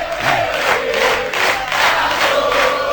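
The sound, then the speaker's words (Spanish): An audience applauds at a live comedy show, a dense, sustained wash of clapping and crowd noise with a little cheering that carries steadily through the whole stretch. “¿Cómo me pueden aplaudir? ¿Cómo pueden hablar? ¿Cómo pueden aplaudir?”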